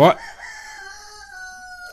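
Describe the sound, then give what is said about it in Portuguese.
A rooster crowing, one long drawn-out crow with a strong opening burst that holds as a steady, bright, harmonic tone for well over a second, heard alone without talk. “Acho que esse é o Galo Dinarte que está cantando agora, né? Até o Galo Dinarte está cantando aí também.”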